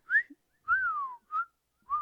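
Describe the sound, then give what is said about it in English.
Someone whistles a song's tune in a few short, clear phrases, one longer note gliding downward, with brief gaps between them and no other sound. “Love that song, mostly because I can whistle.”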